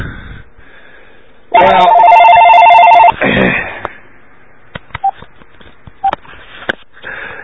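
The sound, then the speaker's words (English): A telephone rings in one loud, steady burst lasting about a second and a half, followed by a few faint clicks. “look, that was my phone”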